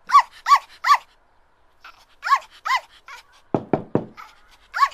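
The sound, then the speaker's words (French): A dog barks in short, yelping bursts, three quick barks, then a pair, then one more at the end, with a few sharp knocks on a door sounding in between. “C'est un chien. Qui aboie et qui frappe à la porte de son voisin?”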